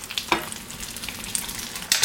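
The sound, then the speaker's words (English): An egg fries in oil in a pan as oil is drizzled over its white, giving a steady crackling sizzle with a few louder pops standing out. “And another nice thing that happens as I drizzle the oil on top of the egg, it almost forms like these little craters in the white, which have really nice texture.”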